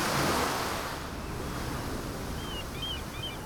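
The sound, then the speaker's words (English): Ocean waves wash continuously onto the shore in a broad, steady rushing roar, a little louder at the very start, with no voices. “like the ocean. You stand right at the ocean, and it's beautiful because it's in big natural stereo.”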